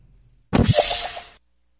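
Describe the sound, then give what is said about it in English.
A video-game portal gun fires a portal as a single whooshing, crackling burst that lasts about a second, then cuts off into silence. “I made a little portal on the wall over here. And when it's nothing, let me wait. Let me shoot this over there.”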